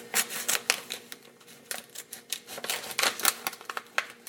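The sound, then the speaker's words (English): Scissors cutting the top off a bag: many crisp, irregular snips and crinkly rustles in quick succession, fairly faint, with no voices. “So, I've got a pair of scissors. I'm going to cut the top off of this bag.”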